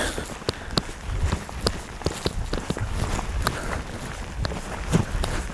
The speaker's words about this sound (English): So I'm now walking on the trail I've just photographed, a rocky, wet and slippery trail